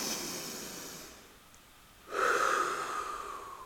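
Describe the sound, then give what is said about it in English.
A soft breath drawn in through the nose fades into a brief pause. A louder, airy exhale through the mouth follows, heard alone and fairly faint. “So join me for a few breaths. Breathe in through your nose and out through your mouth.”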